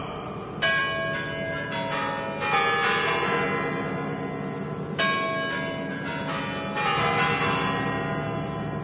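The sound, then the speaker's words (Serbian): Bells of the Kremlin's Spasskaya Tower in Moscow ring at the start of a Victory Day military parade. Several loud, resonant strikes follow one another, their long overlapping tones hanging between hits. “Zvona sa spasiteljeve kule Kremlja označila su početak vojne parade.”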